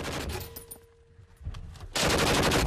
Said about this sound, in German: Ziele ein wenig höher und mehr nach rechts. Ein bisschen nach rechts. Nach rechts. Weiter schießen.